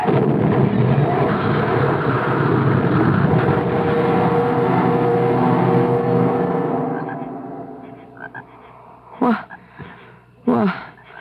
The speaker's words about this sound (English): I'm going into a skid. I can't stop. I'm going to go right off the road.